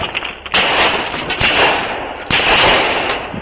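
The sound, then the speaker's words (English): Gunfire from a shooter emptying his weapon at a police officer and patrol car: several loud, sharp shots, each followed by a long, noisy decay that fills the gaps between them. “He's shot after shot at the police officer.”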